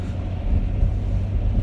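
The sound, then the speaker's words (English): Low, steady engine and road rumble inside a car on the drive home after dropping kids off, continuous and unbroken, with no voices. “I got a little bit of time on the drive home. Just drop the kids off.”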